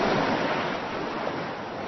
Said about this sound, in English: Ooh, there's a lot of water. Oh, it's coming toward me. The water's coming toward me.